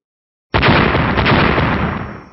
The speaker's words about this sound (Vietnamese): Một tiếng nổ vang rung trời triệt địa truyền đến.